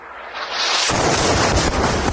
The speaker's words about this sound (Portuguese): Este repórter se preparava para entrar ao vivo na TV quando veio a explosão.